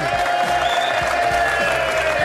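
A studio audience applauds and cheers to welcome guests, a dense, steady wash of clapping with scattered whoops throughout.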